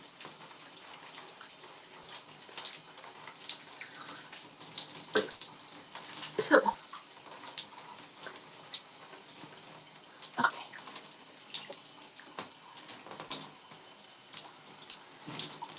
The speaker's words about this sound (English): I'm gonna rinse my face.